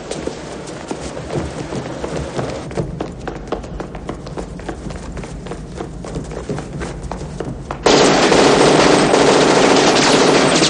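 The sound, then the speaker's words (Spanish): Gunfire in a 1990 police action film scene set in an airport: many rapid, dense shots crackle for several seconds, then a loud, sustained roaring noise takes over to the end. “Los disparos de Strom acaban con el guardia.”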